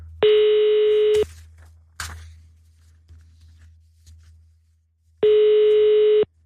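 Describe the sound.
Ringback tone on a phone line while a call to someone's home waits to be answered: two long, steady buzzing rings about a second each, separated by a long quiet gap with a couple of faint clicks.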